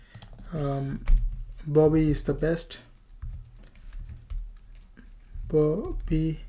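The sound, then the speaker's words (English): Typing on a computer keyboard during a web coding session, a scattered series of light key clicks running under a man's talking voice. “In the first one I'm going to just type something like”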